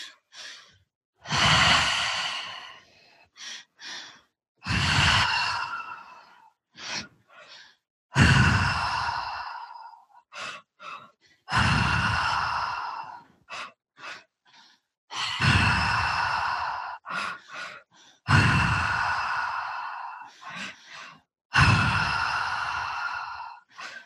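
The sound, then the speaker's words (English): Strong, deep breathing during a breathwork exercise: seven long, forceful breaths, each followed by a few short, sharp breath bursts, in a steady repeating rhythm with no talk. “That's it. Keeping the breath nice and strong.”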